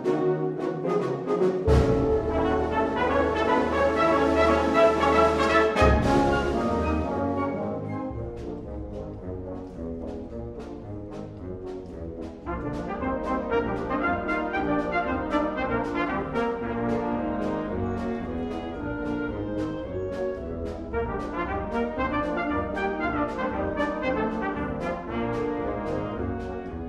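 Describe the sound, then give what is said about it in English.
The Western Illinois University Wind Ensemble performs at the opening of a virtual graduation ceremony: full, sustained brass and woodwind chords, loud at first, then easing into softer, flowing melodic passages. “What you're hearing now is the Western Illinois University Wind Ensemble kicking off the school's virtual graduation ceremony with a performance recorded earlier in the year.”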